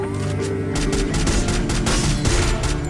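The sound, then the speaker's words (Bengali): Rapid SCAR rifle gunfire in a video game, with a headshot knocking an enemy off a bike; many sharp, loud shots crack in quick succession, forming a dense, continuous burst throughout. “এখানে কিন্তু bike আলাটারে স্কার দিয়ে headshot দিয়ে একেবারে bike থেকে ঠাওয়া দিয়ে নামাই দিছি।”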